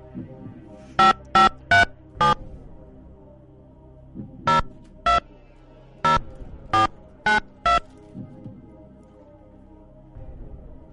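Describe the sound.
A telephone number is dialed as touch-tone beeps: short, even, clear tones in irregular groups, about ten in all, with pauses between clusters over a low, faint hum.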